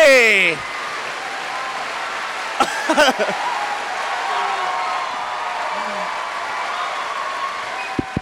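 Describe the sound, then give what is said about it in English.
Loud audience applause in a standing ovation for a guest's introduction: a dense, steady roar of clapping that follows a brief voice at the start and carries on throughout. “That might be the first time I've seen a standing audience stand up more for a standing ovation.”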